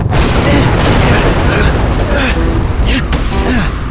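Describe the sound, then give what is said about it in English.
Blasting charges explode at a frontier fort in a Western gunfight, making a loud, continuous roar of overlapping booms and rumbling crackle that stays heavy throughout. “Then, the charges blew.”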